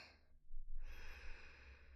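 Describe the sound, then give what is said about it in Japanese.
A deep breath in during a relaxation breathing exercise: a soft, faint, airy inhalation that swells and lasts over a second. “まずは全身の力を抜いてリラックスして深呼吸です。息を吸って、”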